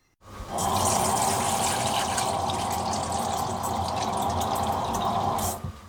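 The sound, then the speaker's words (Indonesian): Cold water pours steadily into a large bowl, ready for cooling freshly boiled spinach, a continuous rushing splash that holds an even level for about five seconds before stopping, with no talk over it. “Masukkan air dingin ke dalam mangkuk yang besar.”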